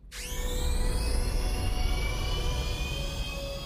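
Escape capsule launching as a radio-play sound effect: a fast upward whooshing sweep that swells into a loud, sustained jet-like roar with a high whine on top, holding steady before easing off slightly at the end.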